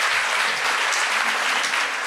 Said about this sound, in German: Einen großen Applaus für Elena Hell.